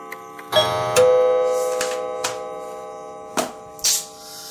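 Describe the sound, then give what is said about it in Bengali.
A clock chiming, with a few resonant strikes at irregular intervals. Each strike leaves a long, humming ring that slowly fades before the next one sounds. “এখন নয় বার ঢং ঢং সোনার পালা কিন্তু নবমবারের সাথে বেজে উঠল সমরেশ মজুমদারের বাড়ির কলিং বেল”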